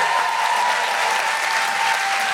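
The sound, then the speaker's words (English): An audience applauds to welcome a performer onto the stage, with many hands clapping in a thick, even, continuous roar that holds steady throughout. “So, before she comes out to sit and chat and join us, please welcome to the stage the incredible Danielle Denise!”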